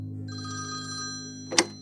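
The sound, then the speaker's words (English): An early-morning telephone bell rings with a steady, rapid metallic trill for about a second and a half, then a sharp click cuts in near the end, with no voices. “On the 21st of March, Alan Hentscher phones John Barker at 6 a.m. to share a premonition.”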